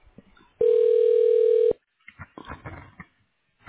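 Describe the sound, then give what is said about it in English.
Telephone tone while an extension is dialed on a phone menu: a single steady beep about a second long, then faint clicks and line noise. “If you know your party's extension, you can dial it at any time.”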